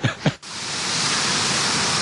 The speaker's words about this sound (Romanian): De fapt, nu curge vinul, este o cascadă cu apă.